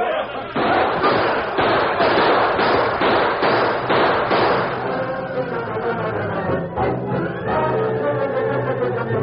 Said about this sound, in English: A few shots were fired, but the outlaws, taken by surprise and outnumbered, were quickly overpowered.